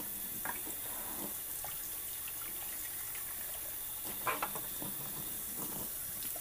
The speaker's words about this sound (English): I'm rinsing out my recycling right now.